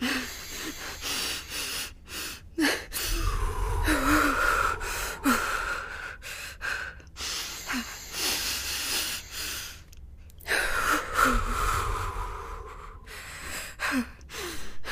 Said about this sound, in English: I want you to breathe in through your nose and out through your mouth.